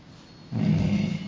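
A sleeping elephant's low, rumbling snore: one deep, sustained breath that starts abruptly, holds steady for about a second, then eases off.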